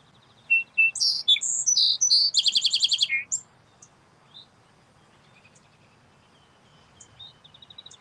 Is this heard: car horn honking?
no

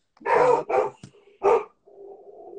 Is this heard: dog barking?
yes

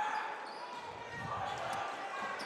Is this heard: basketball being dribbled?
yes

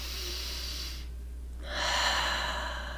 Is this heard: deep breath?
yes

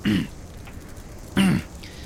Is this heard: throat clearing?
yes

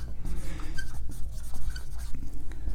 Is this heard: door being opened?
no

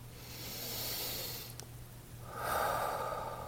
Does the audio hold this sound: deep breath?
yes

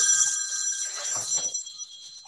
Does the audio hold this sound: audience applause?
no

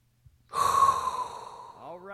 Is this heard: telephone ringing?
no

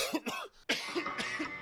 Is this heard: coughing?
yes

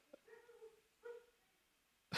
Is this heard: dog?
yes

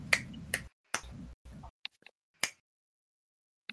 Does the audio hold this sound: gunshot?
no

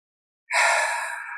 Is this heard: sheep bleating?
no

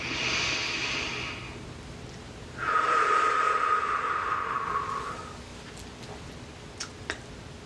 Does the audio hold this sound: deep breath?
yes

